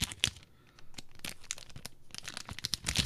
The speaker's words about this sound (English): I'm going to open up our little booster. I am very ready. Let's do this. I love that sound. That sweet, sweet sound.